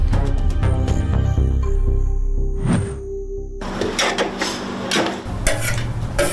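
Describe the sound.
Osh (plov) cooking in a pot brings irregular metallic scrapes and clanks of stirring, with a heavy rumble early on giving way to sharper, busier knocks.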